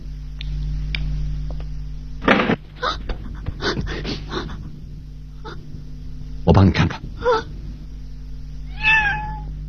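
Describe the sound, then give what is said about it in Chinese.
A cat meowing: a single drawn-out meow near the end, with its pitch falling, follows several louder bursts of other sound over a low steady hum. “原来是只猫。”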